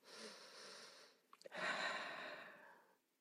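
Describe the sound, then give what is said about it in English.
Breathing from a person doing a reset breath of two quick inhales and a long exhale: an airy breath, then a few brief catches, then a longer, steady breath out that fades to silence. “I could do it right now, you know, two back-to-back inhales, a longer exhale.”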